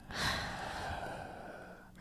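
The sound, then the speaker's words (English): A voice imitates breathing with one long, airy, breathy exhale. It swells early and then trails off, faint and wordless. “what sound does sniffing and breathing make? Sniffing is like...”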